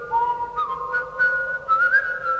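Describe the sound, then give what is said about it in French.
Whistled little tune from a single person, a clear, steady melodic line with small pitch steps and slides, sounding alone without speech or other sounds. “dit Jason en sifflotant un petit air”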